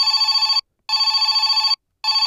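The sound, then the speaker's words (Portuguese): A landline telephone rings with a loud, rapid trilling bell, in bursts separated by short silences: two full rings and the start of a third. “Não demorou muito para o seu telefone começar a tocar com algumas interessadas”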